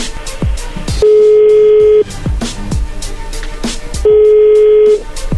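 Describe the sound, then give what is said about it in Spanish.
A dialed telephone call rings out with two steady, mid-pitched ringback tones, each about a second long and about two seconds apart, over a busy backdrop of repeated plucked, falling tones. “A ver, bueno, ahí se está marcando por último y vamos a ver qué sucede.”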